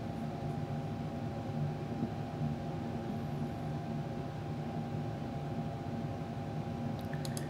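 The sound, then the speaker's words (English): A selective solder machine runs at unusually high speed while soldering a relay FeatherWing board, giving a faint, steady mechanical hum with a sustained tonal whine. “Here is the selective solder machine. At high speed. It's not normally this fast.”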